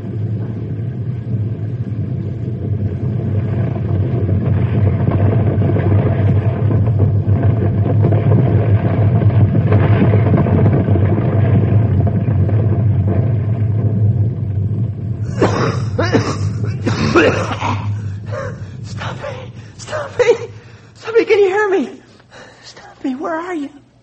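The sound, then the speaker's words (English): Deep rolling rumble of a rockfall inside a cave set off by explosive charges, loud and sustained for about fifteen seconds before it subsides as voices speak. “A couple might be enough, my friend, to cause a rockfall inside the cave.”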